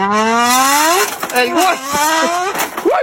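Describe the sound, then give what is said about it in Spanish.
A voice imitates a Ferrari engine working through its gears. A revving hum climbs in pitch, breaks off, then rises again in shorter bursts, sounding loud and buzzy. “¿Cómo que hacen los Ferrari? El Ferrari tuyo cuando tú vas tirando cambio.”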